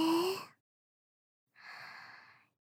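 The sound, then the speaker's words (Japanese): A slow, deep breath in during a guided breathing exercise: a short bit of voice fades, a pause of silence follows, then a soft, airy inhale lasts about a second. “ゆっくりと深呼吸を3度行います。ゆっくり吸って、”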